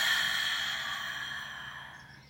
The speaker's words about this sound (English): So breathe in. Feel the air going into your lungs and release.